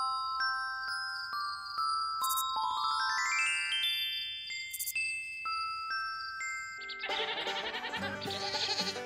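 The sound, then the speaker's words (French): A goat bleats with a wavering, quavering cry in the final seconds, following a run of bright, tinkling, chime-like tones. “Elle se mit à s'occuper d'une chèvre et à jouer avec elle chaque jour.”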